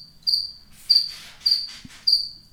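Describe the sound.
A cricket chirps in four evenly spaced bursts. Each is a high, thin, rapid trill, fairly faint against a quiet background.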